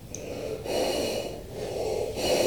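Breaths blown hard into an inflatable toy dolphin to inflate it: a few long, rushing puffs of air separated by brief pauses, with no talk.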